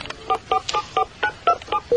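A telephone number being dialed: a quick, evenly spaced series of bright touch-tone beeps of varying pitch, loud and alone, the last tone held slightly longer.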